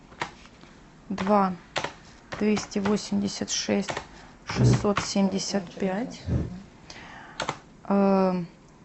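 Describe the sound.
Typing on a computer keyboard, with light, quick clicks running under near-continuous speech.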